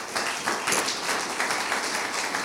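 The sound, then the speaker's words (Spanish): A church audience applauds, steady dense clapping at moderate loudness, continuous and even throughout with no voices on top. “Amén, dele un aplauso al Señor.”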